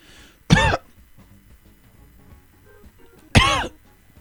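Two coughs from one person, each a short, harsh burst, separated by about three seconds of near silence.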